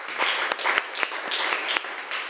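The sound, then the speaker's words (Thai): Classroom applause for a student: a group claps in a dense, steady patter, with a few sharper claps standing out, at a moderate level for the whole stretch. “ปรบมือให้เพื่อนคนที่สองหน่อยค่ะ”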